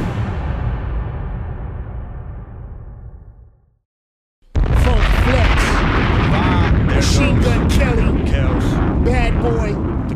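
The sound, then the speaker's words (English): A bomb drop sound effect that thins and fades over about four seconds. After a brief moment of silence, a loud, sustained blast erupts with chaotic crackling bursts, and voices are heard within the din. “Got the bomb. I'm trying to tell you. The bomb drop.”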